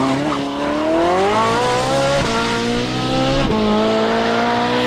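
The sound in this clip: A Ferrari sports car engine revs hard and loud. Its pitch climbs steadily, drops sharply twice as it shifts gears, then rises again each time. The engine roar plays alone, with no talk.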